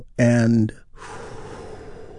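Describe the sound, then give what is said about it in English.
A deep breath and slow release during a guided healing meditation. A short voiced tone is followed by a long, soft, airy breath that fades gradually. “Take another big, deep, healing breath with me right now. Here we go.”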